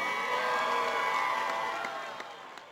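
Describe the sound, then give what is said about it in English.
Crowd cheering and applause fill the air at an event officially welcoming PWHL San Jose to the Bay Area, a dense, steady roar of voices and clapping that slowly eases off toward the end. “I'm supposed to ask you to make some noise and put your hands together, but you're already doing that as we officially welcome PWHL San Jose to the Bay Area.”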